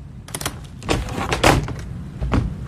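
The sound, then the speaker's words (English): A suitcase being opened: a few sharp clicks and rustling, scraping knocks, spread unevenly over a couple of seconds, with no talk. “I didn't steal that suitcase. I sent it here from Lima, Ohio. I know it's yours. That's why I want to see what's inside. Why? Never mind. Just open it.”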